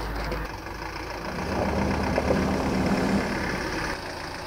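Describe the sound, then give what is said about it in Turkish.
A car engine idles with a steady low rumble and a faint droning hum that swells slightly midway and then evens out, with no voices over it. “Abi araba geldi abi. Araba.”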